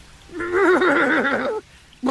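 A horse neighing: one warbling, wavering whinny of just over a second, followed by a short pause and the start of another sound.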